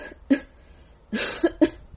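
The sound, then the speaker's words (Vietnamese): Coughing from a wounded man coughing up blood: a few harsh, ragged coughs with breathy bursts, the first one alone and the rest coming close together near the end. “Hồ Duyệt ho khụ khụ, miệng phun ra máu”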